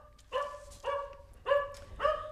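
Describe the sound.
A dog barks at the front door of a family house as a guest arrives: four loud, evenly spaced barks with no talk.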